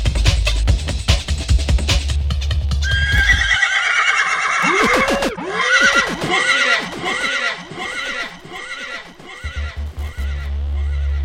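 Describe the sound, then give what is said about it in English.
A horse neighing sound effect: a long whinny of repeated warbling pitch arcs, with clip-clop hoof beats, set between loud, bass-heavy music before and after. “he's the horse that tells me whether I should rewind the tune”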